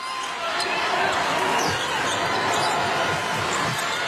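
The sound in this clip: A basketball is dribbled on court during a game between China and the Czech Republic, with several dull bounces under steady crowd noise and a commentator's voice.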